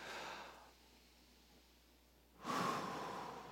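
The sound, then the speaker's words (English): Breathing during a guided group deep-breathing exercise: a brief airy inhale, a quiet pause, then a longer, louder breathy exhale that slowly fades, with no talk. “Can we all take a deep inhale, and we're going to do a slow exhale.”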